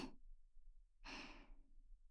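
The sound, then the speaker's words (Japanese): Soft breath blown into the ear: two faint, airy puffs separated by a short silent pause, with no talking. “ママの甘い息ふうふうされるの好き？してほしくなったらいつでもしてあげるからね。”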